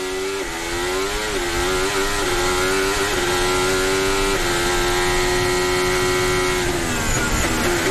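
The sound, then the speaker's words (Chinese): A Formula 1 Ferrari engine, heard from onboard during a race, gives a loud, high, buzzing whine. Its pitch holds nearly level with a few brief dips, then drops more sharply near the end before climbing again. “汉密尔顿呢在追赶着前面的皮亚斯里，这是汉密尔顿的车载，等于现在两辆法拉利呢加了一辆麦克拉伦。”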